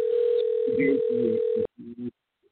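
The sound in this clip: A telephone rings back on an outgoing call: one steady, even tone lasting over a second, with talking over it and a few words after it cuts off.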